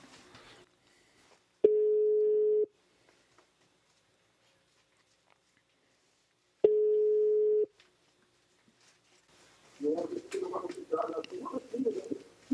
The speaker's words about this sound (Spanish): Márcale, márcale. Vamos a ver si nos contesta, a ver si está disponible, ¿no? Sí. Ya está sonando